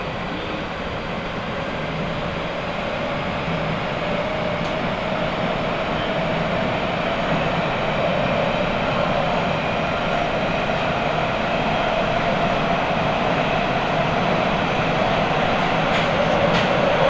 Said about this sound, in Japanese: この電車は栄岩池方面藤ヶ丘行きです